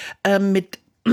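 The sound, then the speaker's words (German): A person clears their throat with a few short, rough, voiced rasps in quick succession, separated by brief pauses. “ich muss mich nochmal räuspern.”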